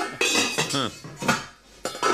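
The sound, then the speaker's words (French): Pots and pans rattle and clank in a few loud, irregular metallic bursts with short gaps between them. “C'est pas une voiture de mariée, c'est le bruit des casseroles.”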